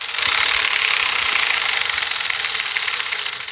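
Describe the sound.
A prize wheel being spun gives off a rapid, continuous ratcheting clatter, loud and steady throughout with no voices.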